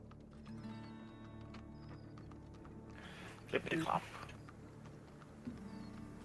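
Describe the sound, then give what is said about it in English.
Horse hooves galloping at full speed, a steady run of clip-clop beats throughout, with a brief louder burst of sound near the middle. “So you ride full speed on your horses for a little bit to the wayside inn”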